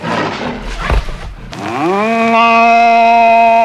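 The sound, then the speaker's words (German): A bull bellows loudly after scuffling, thumping sounds. The drawn-out bellow climbs in pitch and then holds as a steady, harmonic-rich roar to the end. “Der Stier raste ihm nach.”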